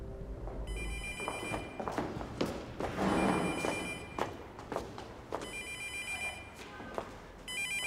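A telephone rings with an incoming call in several bursts of bright electronic trilling separated by short gaps, with thuds and light taps sounding between the rings.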